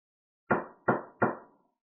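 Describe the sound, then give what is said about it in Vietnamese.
Three hard, evenly spaced knocks on the door of a hall, each a sharp blow with a short, dull decay, sounding alone against silence. “Ngoài Ti Vũ Điện vang lên tiếng đập cửa”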